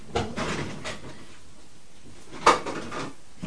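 A drawer opening or closing during a household search for a toy truck's missing part: two soft knocks, the second sharper and louder, separated by quiet, with faint rattling in between.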